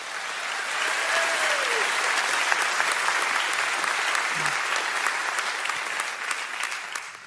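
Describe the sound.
Church audience applause welcomes a staff member, a Sunday morning coordinator, during a Christmas-season service. The clapping is steady and fairly loud, holding evenly throughout before stopping abruptly.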